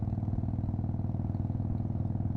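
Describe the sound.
Motorcycle engine running as the rider gives some gas: a loud, low, steady throbbing drone with even rhythmic pulses throughout, alone with no voices.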